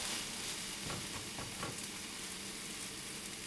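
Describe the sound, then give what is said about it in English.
Pancake batter frying in a pan gives off a steady, even sizzle that holds throughout, with a few faint crackles and soft scrapes near the middle. “Flip.”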